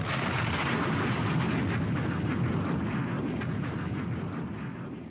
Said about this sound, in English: Bombs!